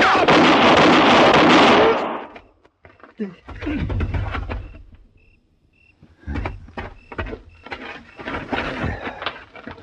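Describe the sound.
A loud gunshot blast from a radio western drama fills the opening two seconds as one broad, sustained burst, followed by quieter voices and scattered short sounds.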